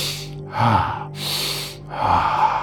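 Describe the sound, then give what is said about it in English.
A single deep breath drawn in during a guided breathing exercise makes a long airy hiss, surrounded by softer, breathy sounds before and after. “Another deep breath in. Feel alive, feel right in the now. One more deep breath in. And again.”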